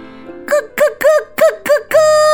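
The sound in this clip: A storyteller's voice imitates turkeys singing together, producing five short wavering gobble-like hoots in quick succession and then one longer held call.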